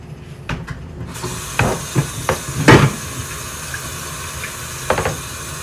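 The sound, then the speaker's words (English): Water runs from a tap as hands are washed during cooking prep, a steady hiss with a few clunks and knocks scattered through it. “Meantime, let's wash our hands.”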